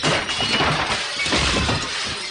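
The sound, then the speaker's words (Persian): Glass in a jewelry shop door being smashed: a loud, harsh crash of shattering glass, followed by continuous crunching and tinkling debris that stays dense and loud through the whole short burst. “داوود میزنه شیشه در جواهر فروشی رو میشکنه”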